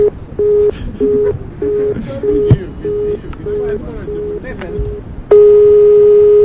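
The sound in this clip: Telephone busy tone after the other side hung up: a run of short, evenly spaced mid-pitched beeps, then a single steady, unbroken tone that holds loudly to the end.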